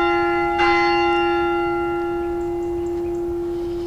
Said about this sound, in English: That is the sound of the Priory Bell.